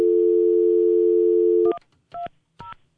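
A steady telephone dial tone holds for about a second and a half, then three short keypad tones are dialed with brief gaps between them, as a caller rings the Senate switchboard.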